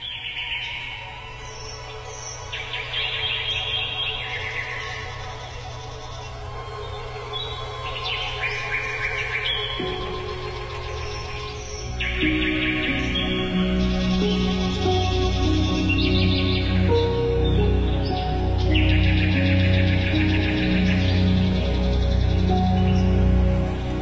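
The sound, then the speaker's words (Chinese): Small birds sing at an outdoor forest theatre in Berlin, with many bright, high chirps and tweets throughout and a steady low rumble beneath that grows louder about halfway through. “那每一次到这个时间的时候，我们在柏林森林剧场现场的小鸟也会和它应和。”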